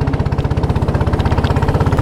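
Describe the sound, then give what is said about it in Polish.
The motor of a small boat runs with a rapid, even chugging beat, its many low pulses packed closely together at a steady, loud level with no pause or change. “a teraz odpalamy silnik i ruszamy w drogę”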